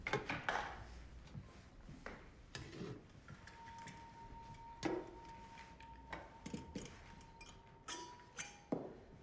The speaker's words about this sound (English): She takes the glass covers off the lamps, turns the valves, and lights the wicks with a match.